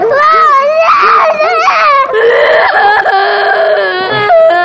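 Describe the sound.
A young girl cries loudly and continuously, with high, wavering wails and sobs that hardly pause across the whole stretch.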